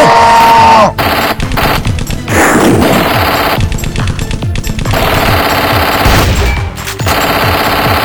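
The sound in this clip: Rapid automatic gunfire erupts during an ambush: loud, dense bursts of machine-gun fire run through nearly the whole clip, broken only by a few brief pauses.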